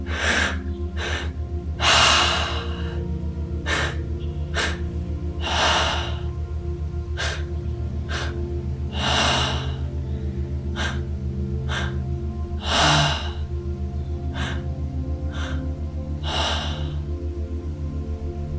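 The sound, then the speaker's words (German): Slow, deep inhalations during a guided breathing meditation, five long airy breaths spaced at regular intervals over a steady low drone. “Nimm das, was dir spontan einfällt und atme es ein. Werd tiefer”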